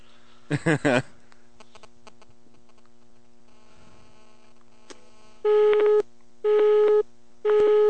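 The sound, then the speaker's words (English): A telephone busy signal sounds as three even, half-second tone bursts in a steady on-off rhythm near the end. A short burst of sound and a faint hum come before it. “Okay, I think we're ringing. It's busy. Of course it is.”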